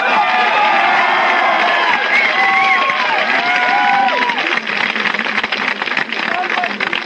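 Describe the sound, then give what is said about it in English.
A large crowd cheering and whooping at a live event in Redondo Beach, forming a loud, continuous roar with a voice speaking over it. “The crowd is ever swelling, and the crowd continues to move in from my left to my right”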